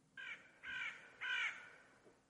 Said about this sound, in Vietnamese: một con quạ xà xuống đậu trên vai của thầy. Con quạ nhìn thầy chầm chập, đoạn kêu lên mấy tiếng.